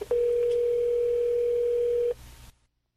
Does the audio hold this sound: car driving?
no